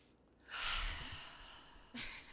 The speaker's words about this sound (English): You want some deep breaths? Oh yeah. One more.